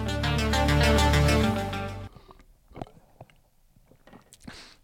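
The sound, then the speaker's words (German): Sipping and swallowing as someone drinks a daily serving of AG1 greens supplement, a few soft, wet mouth clicks and gulps, sparse and quiet, following a short burst of music that cuts off abruptly. “Essen und Trinken im Podcast macht man eigentlich nicht, aber ich hatte meine Tagesration AG1 heute noch nicht. Deswegen musste ich jetzt.”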